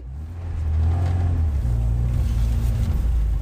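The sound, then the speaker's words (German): Minibus driving back to Chisinau on a hot, stuffy day, heard from inside as a loud, continuous low engine rumble with steady road noise and no voices. “sitze ich wieder im Kleinbus. Ich fahre zurück nach Chisinau.”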